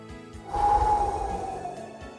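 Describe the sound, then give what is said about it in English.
A deep breath is drawn at the start of a breath prayer: one soft, breathy inhale that swells and then fades over about a second, with a faint steady tone underneath and no words. “Let's have a breath and a prayer.”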